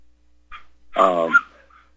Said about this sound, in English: there's my dogs.